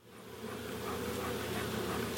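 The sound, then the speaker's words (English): Bees buzz inside an opened wooden beehive in eastern Washington, a dense, even drone that swells in over the first half-second and then holds steady and fairly quiet. “clutches the lid on top of his wooden beehive. He slowly lifts it up and peeks inside.”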